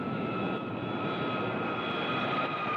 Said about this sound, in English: In preparation for our landing in Houston, please observe the fasten seatbelt sign, and please, no smoking until well inside the terminal.